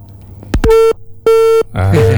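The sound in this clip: A telephone line cutting off during a call: a couple of sharp clicks, then two steady, evenly spaced electronic beeps of the disconnect tone.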